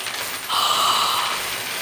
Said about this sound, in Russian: посыпались тысячи золотых монет